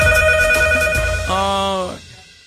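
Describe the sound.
A telephone ringing: steady electronic ring tones, one tone set giving way to a lower, harmonic-rich ring that cuts off abruptly near the end, over background noise.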